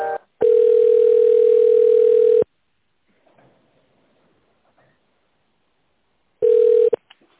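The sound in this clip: A telephone line tone sounds while a call is being transferred: one loud, steady, unbroken tone lasting about two seconds, then near silence with faint rustles, then the same tone returns briefly at the end.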